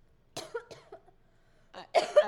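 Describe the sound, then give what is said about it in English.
Coughing from a person who still has a lingering cough: a few short, harsh coughs in two quick clusters separated by a quiet pause, with no talking. “Yes, I still have a cough.”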